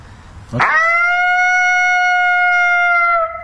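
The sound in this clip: A single lonesome howl call with a sharp rising onset that settles into a loud, steady, harmonic-rich tone held for about three seconds before cutting off.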